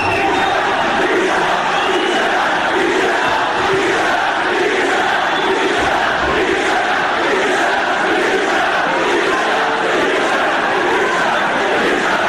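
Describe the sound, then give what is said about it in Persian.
Stadium crowd chanting insulting slogans: a dense, loud, unbroken roar of many voices shouting together, sustained for the whole stretch. “اما بریم رو شعارهای توهین‌آمیز که اونم چند بخش، کم زهر و خیلی زهردار. این صدا رو بشنوی.”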